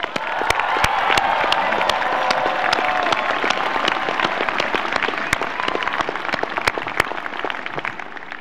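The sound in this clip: Loud, sustained applause from a Stanford graduation audience honoring the university's faculty and staff. Dense clapping mixes with some cheering and holds at an even level throughout.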